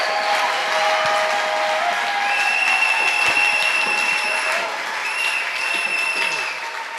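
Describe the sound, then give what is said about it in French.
Steady applause from a church audience clapping during a thanksgiving service for an auxiliary base, a dense, continuous patter that holds at an even level for the whole stretch. “Acclamons le Seigneur. Let's clap for the Lord.”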